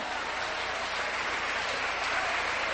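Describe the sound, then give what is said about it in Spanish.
Applause from an audience during a Christian sermon. It is a steady, dense wash of clapping hands that keeps an even level for the whole stretch and does not build or die away. “Un aplauso fuerte.”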